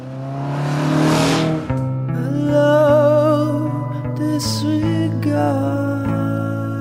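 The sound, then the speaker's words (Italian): A car engine accelerates hard as the driver sets off on the road toward a race. The engine is a loud, steady, rising drone, broken by a few brief dips where the gears shift. “James Dean si mette al volante, accelera e si dirige verso l'ultimo bivio”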